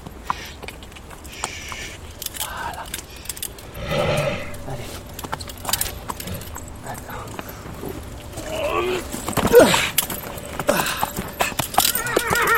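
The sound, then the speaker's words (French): A horse's hooves clip-clop in many uneven clicks, with occasional neighing, while a person talks over the movement. “Allez, viens là, mon cheval. Allez, viens.”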